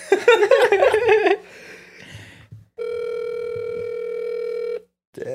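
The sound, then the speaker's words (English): An outgoing phone call's ringback tone: one steady, buzzing electronic tone of about two seconds. Laughter comes before it, and a voice starts just after it ends. “So let's call this person and see what's going on.”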